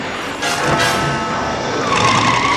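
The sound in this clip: A DeLorean car pulls away, giving a steady, loud rush of engine and tire noise that jumps up after a brief quieter start and carries on to the end.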